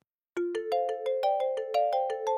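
A telephone ringtone plays as a quick, even run of bright electronic notes that step gradually upward in pitch, loud and alone after a short silence.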